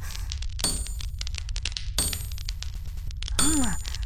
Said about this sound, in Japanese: 鉄を叩くのはそんなに面白いのか。